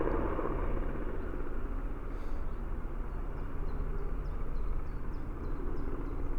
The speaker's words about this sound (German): schwarzer Hubschrauber, ein Riesending. Was ist das denn für ein... Was macht der da? Der fliegt da seitlich ganz langsam. Der ist pechschwarz.